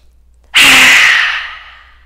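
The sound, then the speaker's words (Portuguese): A deep breath out empties the lungs during a therapeutic Lu Jong yoga breathing exercise for anxiety and shortness of breath: one forceful, airy rush starts abruptly and fades over about a second and a half. “Feito três respirações completamente profundas, soltando todo o ar dos pulmões”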